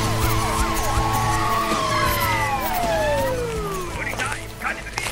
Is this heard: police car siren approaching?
yes

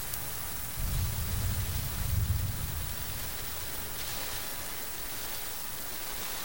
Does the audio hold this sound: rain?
yes

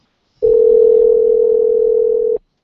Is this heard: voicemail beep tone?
yes

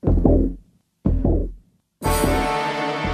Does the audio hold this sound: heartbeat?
yes

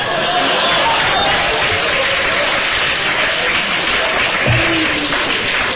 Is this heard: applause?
yes

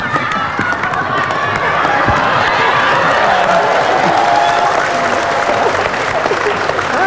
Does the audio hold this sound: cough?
no

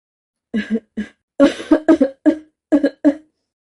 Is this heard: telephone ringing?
no

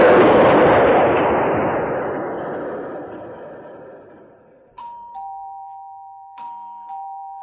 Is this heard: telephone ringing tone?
no

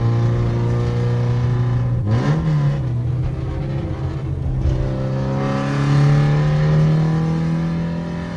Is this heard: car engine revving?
yes

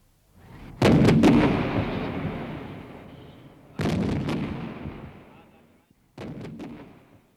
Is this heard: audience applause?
no

